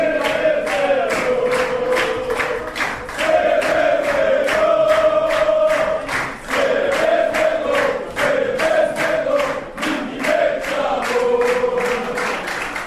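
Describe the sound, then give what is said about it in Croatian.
Relatives and fans chant at Belgrade's Nikola Tesla airport, celebrating the success of young footballers. The crowd keeps up a loud, repeated rhythmic chant with sharp percussive hits running through it. “Već na aerodromu igrači nisu krili emocije. Rodbina i navijači skandiranjima su pokazali koliko su srećni zbog uspeha mladih fudbalera.”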